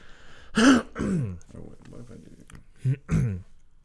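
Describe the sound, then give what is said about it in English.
A person clears their throat and hacks up phlegm in a few harsh, rasping bursts separated by short pauses. “Got some phlegm going on. That's good for audio. Just hack that all out.”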